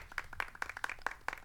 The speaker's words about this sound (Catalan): Un aplaudiment per la Jana, no? I els fico jo.